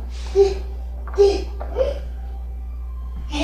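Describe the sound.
A baby babbles in three short voiced bursts while adults play with the child and its dolls. The coos are bright and brief, separated by pauses over a steady low hum.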